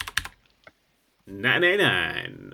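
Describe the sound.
A few brief keystrokes tapped on a computer keyboard, followed by a short silence and then a voice speaking.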